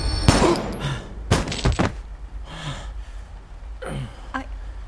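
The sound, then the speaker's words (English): A few sharp, loud gunshot-like bangs go off during a violent struggle, followed by strained gasping breaths that fade in and out. “I was able to reach the gun. I never... Oh, God. I shot...”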